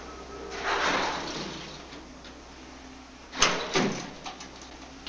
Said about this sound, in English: They pull open the grill and head down a narrow corridor.